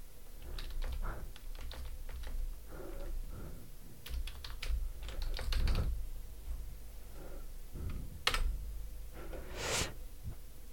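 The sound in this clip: Typing on a computer keyboard: many quick, light keystrokes clatter in irregular bursts with short pauses between runs, a few sharper clacks standing out, with no talking over them.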